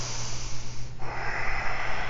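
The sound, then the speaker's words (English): Breathing in and out through the nose during a yoga class, a soft, airy breath sound with a steady hiss that shifts in tone partway through. “So your lips, breathe in and out through your nose.”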